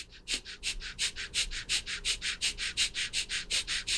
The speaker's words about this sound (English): a breath of fire is a really powerful and rapid breath in and out through the nose. It sounds like this.